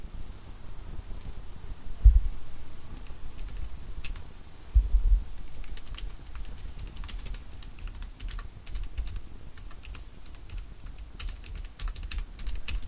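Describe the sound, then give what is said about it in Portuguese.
Typing on a computer keyboard, heard as a long run of many quick, faint key clicks in an irregular rhythm, with a couple of louder thuds along the way. “Eu vou digitar.”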